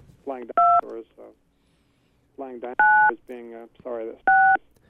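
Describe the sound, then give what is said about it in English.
Telephone keypad tones sound as someone dials out on an extension. Three separate, steady two-tone beeps are spaced apart, each one between stretches of a person talking. “someone's trying to dial out on your extension, I think. Extension they're using.”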